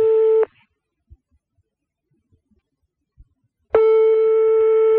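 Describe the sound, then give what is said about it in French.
Ringback tone of a redialed telephone call: two steady, buzzing tone bursts separated by a few seconds of near silence, the first cut off at the start and the second running to the end. “Elle va laisser sonner. Allez, décroche”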